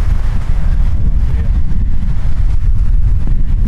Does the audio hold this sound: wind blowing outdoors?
yes